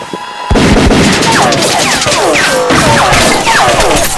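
Gunfire erupts in a shootout around a truck, starting abruptly after a half-second of quiet. Many loud shots crack in quick succession, mixed with repeated falling whistle-like tones.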